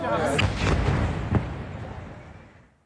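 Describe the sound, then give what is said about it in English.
Blasts from an Israeli airstrike on a residential building near Al-Aqsa Hospital in Deir al-Balah, central Gaza: a few heavy booming impacts over a low rumble that gradually fades out. “This is the moment Israeli fighter jets struck a residential building near Al-Aqsa Hospital in Deir al-Balah in central Gaza.”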